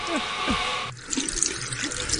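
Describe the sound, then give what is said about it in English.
Tap water runs while someone washes their hands in a bathroom. A steady, soft rushing stream changes partway through to a brighter, splashier flow with small drips. “Yes, she's washing her hands.”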